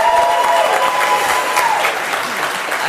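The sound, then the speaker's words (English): Audience applause and cheering greet a speaker at a cannabis regulations panel at a conference in San Francisco: a dense, loud wash of clapping that continues throughout and eases slightly toward the end. “Give it up for Sunshine Lencho, everyone. Yo, make some noise for Sunshine Lencho!”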